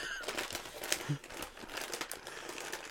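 A chicken-seasoned snack packet is being opened with a steady, fairly faint crinkling of plastic wrapping, with many small crackles that run through the whole clip.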